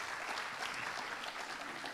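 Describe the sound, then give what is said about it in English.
A church audience applauds to welcome a guest preacher up front for a morning service: a steady, dense patter of many hands clapping, soft and continuous throughout. “But why don't we give him a hand and welcome up here, Dave Morley, going to be preaching for us this morning.”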